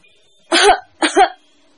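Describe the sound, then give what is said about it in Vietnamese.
Two short dry coughs from a person, evenly spaced and moderately loud, heard alone with no speech around them. “Kim Kiền ho khan hai tiếng”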